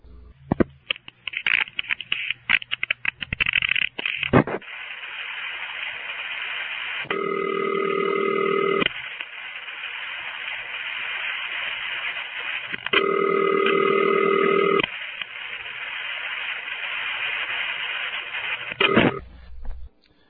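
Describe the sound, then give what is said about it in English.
Recreated crossbar telephone switching on a call through a toll tandem into a panel office: bursts of rapid revertive-pulsing clicks, then steady tones broken by two loud buzzing rings, with more clicking near the end. “What you heard was the crossbar 5 cutting through to the toll tandem, then the toll tandem communicating with the panel office through a process known as revertive pulsing,”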